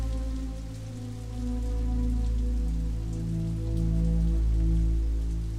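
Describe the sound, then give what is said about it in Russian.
Heavy downpour of rain, a dense, steady hiss of drops pounding surfaces, continuous and fairly loud over a low steady hum, with no voices. “Ливень.”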